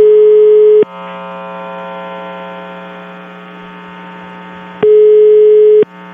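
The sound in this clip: A telephone ringing as a loud, steady electronic buzzing tone rich in harmonics, which shifts and breaks off a few times and sounds alone without voices.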